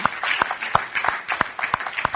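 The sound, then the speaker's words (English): An audience claps hands in praise during a church service: a dense wash of applause runs throughout, with sharp, strong claps standing out at a steady rhythm of about three per second. “Give the Lord a hand clap of praise for being awesome.”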